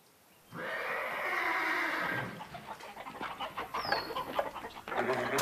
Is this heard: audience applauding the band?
no